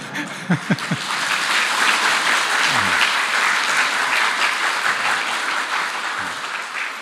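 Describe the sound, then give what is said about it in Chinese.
Audience applause at a talk in Hong Kong: dense, steady clapping that stays loud for about seven seconds, with a few low thumps near the start. “你们这样掌声呢，李悦老师就不得不来了啊。”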